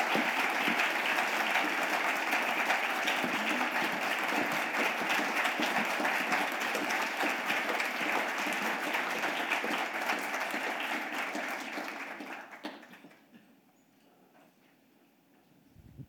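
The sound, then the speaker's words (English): Audience applause welcomes two authors onto a stage, a dense, even clapping that holds steady for about twelve seconds before quickly fading away to near quiet at the end. “Please put your hands together and welcome Emily St. Mandel and Charles Yu.”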